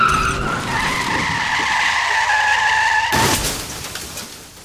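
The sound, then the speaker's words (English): A sedan fails to take a sharp corner and crashes into a blockade: a loud, sustained tire squeal over a roaring engine, cut off by a sudden harsh burst of noise that fades out. “Suddenly, failing to take a sharp corner, the miscreant drove straight into a blockade.”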